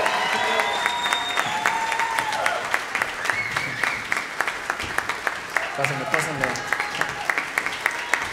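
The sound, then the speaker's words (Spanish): Crowd applause for the string section at a rock band's concert: sustained, dense clapping with sharp individual claps popping out and crowd voices rising over it. “Jorge, Zuli, aplauso fuerte para nuestro equipo de cuerdas.”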